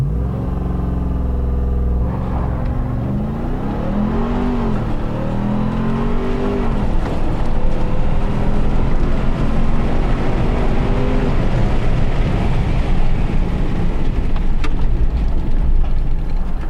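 Engine roar from a car launching hard with launch control over an eighth-mile run, reaching about 80 mph: a loud, continuous roar whose pitch climbs, falls back and climbs again as it accelerates.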